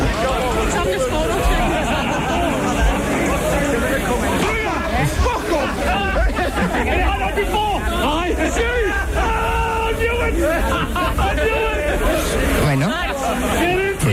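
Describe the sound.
Street hubbub from the Rambla de las Flores in Barcelona comes through an open window, a continuous mix of crowd chatter with occasional shouts rising above the babble.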